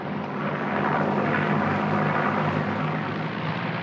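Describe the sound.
An airplane turning and coming in to land, its engine giving a steady, rumbling drone that swells slightly in the middle and holds fairly loud the whole time, with no voices.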